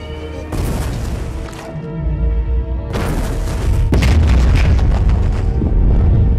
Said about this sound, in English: He glances back at the sinking trawler, then dives underwater and covers his ears as bombs explode.